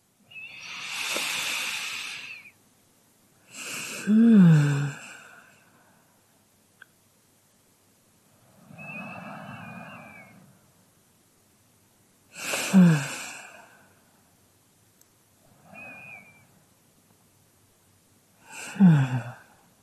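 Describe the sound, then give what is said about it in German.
Three slow, deep breaths, each an airy drawn-in breath followed by a sighing release, separated by quiet pauses with no talk. “3 tiefe Atemzüge.”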